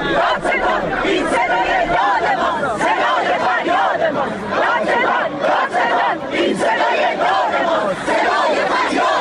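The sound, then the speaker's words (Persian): A crowd in Isfahan chants protest slogans about an acid attack case. Many voices shout in unison in loud, rhythmic bursts, with the phrases repeating over a constant roar of the crowd. “بله، صدای شعار مردم اصفهان رو شنیدید در مورد پرونده اسید پاشی”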